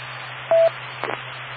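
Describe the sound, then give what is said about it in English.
A radio repeater courtesy tone sounds as a single short, steady beep over constant radio hiss and a low hum, followed shortly after by a brief crackle of noise. “I'm looking for a courtesy tone.”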